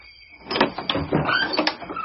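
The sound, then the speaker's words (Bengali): Knocking with a knocker on a front door: a few sharp knocks in two short clusters with a rattling, clattering quality. “কখন থেকে কড়া নাড়ছে শুনতে পাওনি?”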